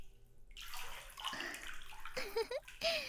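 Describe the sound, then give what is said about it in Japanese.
Warm water runs over hair as it is wetted, a steady hissing pour with splashy swells that rises and falls over a few seconds. “お湯で髪を濡らしますね。”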